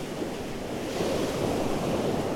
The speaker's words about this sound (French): Et c'est vrai que le sable est rouge, la mer s'éclate.